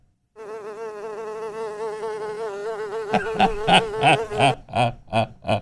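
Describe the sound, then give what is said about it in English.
A person's voice imitates a buzzing insect or bee, as if heckling a tennis player before a serve: a sustained nasal drone that breaks into rapid, loud, stuttering pulses toward the end. “insect sounds or bee sounds when the tennis players are starting to serve, before they serve.”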